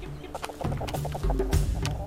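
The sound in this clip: Clucking from a flock of chickens kept by a villager at midday, a few short, quiet clucks scattered over soft background sounds, with no talk.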